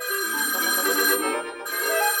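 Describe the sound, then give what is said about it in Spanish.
A telephone ringing with a bright, continuous electric jangle, loud and alone, briefly dipping before it rings on. “¡Ah, oh, teléfono! Ahora vuelvo.”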